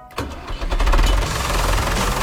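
A tractor engine cranks and catches, a short churning start that settles almost at once into a steady, loud, rattling run with no voices.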